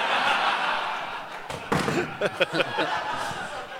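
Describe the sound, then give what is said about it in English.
A microphone dropped on stage at a live comedy show hits the floor with a sudden dull thud over steady crowd noise, followed by scattered laughter and voices. “That was the worst mic drop ever.”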